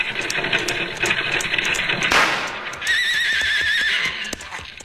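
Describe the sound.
A single rifle shot fired from behind rocks at a lumber wagon driver: a sharp, broad burst midway through, set against steady horse clip-clop and a horse whinnying afterward.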